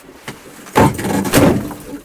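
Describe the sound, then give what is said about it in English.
A door is swung shut by hand, giving two broad, noisy thuds about half a second apart, moderately loud against a low background hiss. “just grab the door and swing it shut here”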